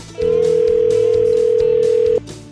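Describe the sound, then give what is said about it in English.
A steady telephone dial tone sounds while a call is placed to a shop, one even mid-pitched tone holding for about two seconds over a low musical bed. “So let's dial up Jim at Marbles Outlet in Gladstone.”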